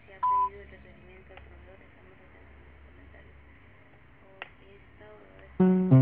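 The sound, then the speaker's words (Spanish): Voicemail beep tone on a phone call: a short, steady electronic beep near the start, then quiet line hiss with faint clicks, and a louder tonal burst at the very end. “Deja tu mensaje después del tono.”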